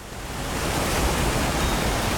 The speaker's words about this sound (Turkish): Baksanıza, şelalenin debisi inanılmaz güçlü.